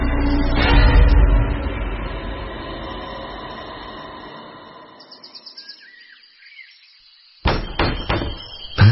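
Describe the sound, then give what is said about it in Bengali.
Heavy knocking from a door knocker on a front door in the early morning: after a long, fading swell of noise, a few sharp, loud knocks land in quick succession. “সকাল সাতটা নাগাদ সদর দরজায় একটা ভারী কড়া নাড়ার শব্দ হল।”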